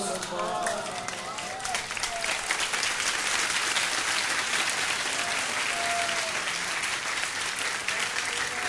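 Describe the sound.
Audience clapping at a Shia mourning gathering, a continuous wash of many hands that runs the whole time, with a chanting voice faintly heard above it in places.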